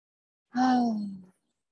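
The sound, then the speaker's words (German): A single deep, voiced out-breath through the mouth, as part of a breathing exercise: a steady low hum-like tone lasting under a second that sinks slightly in pitch and fades away, heard alone with no talking. “Tiefer Atemzug durch die Nase ein und Mund aus.”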